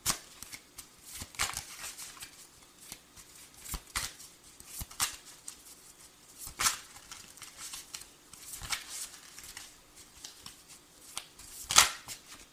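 A deck of cards being shuffled, many brisk, fairly faint riffling bursts with a louder sharp snap near the end.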